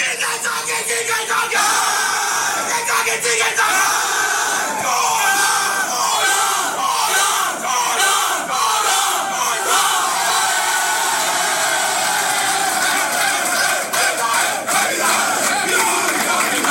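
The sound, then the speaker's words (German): Football players cheer, shout and yell together in their dressing room after winning a cup semi-final and reaching the final. The rowdy crowd noise of raised voices is loud and continuous, with overlapping bellows and chants. “was wir aus der Kabine zugespielt bekommen haben, direkt vom WRC, nachdem eben dieser Cup-Finaleinzug quasi fixiert war. So klang es da bei den Spielern.”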